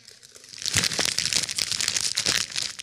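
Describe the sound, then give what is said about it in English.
A bag of M&M's is crumpled in the hand, a loud, continuous crinkling and crackling of plastic wrapper lasting a couple of seconds. “But as soon as that M&M bag crumples, it's like radar, man.”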